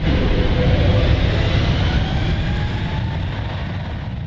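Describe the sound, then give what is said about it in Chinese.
Steady engine roar of an airplane in flight from Melbourne, carrying Australian humanitarian aid to an earthquake zone. The dense, unbroken drone is a little louder in the first second, then holds level, with no voices. “这架从墨尔本起飞的航班正在前往地震灾区的途中，机上载有来自澳大利亚的人道主义援助。”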